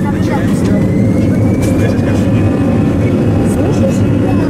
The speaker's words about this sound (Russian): Начинаем взлет, Катя.